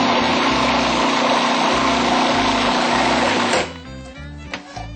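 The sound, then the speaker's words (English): A blender whirs loudly and steadily as it blends a tofu mixture, then cuts off abruptly partway through, leaving faint low music that continues underneath. “Sometimes it's useful to scrape in the ingredients on the side. Blend for another second or two.”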